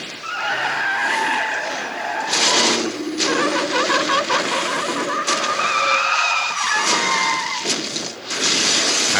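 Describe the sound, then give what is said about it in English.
Tires skid and squeal as cars spin out in a multi-car pile-up: loud, sustained screeching with engine roar beneath it, broken by several sharp bursts. “They spin over. Oh, what do you call those? It's like a pretty big, you know what? A pile up.”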